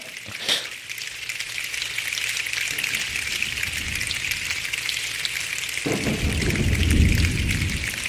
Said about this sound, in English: How do you do the thunder? Maybe is that a sheet of... their feet on the bleachers, I think.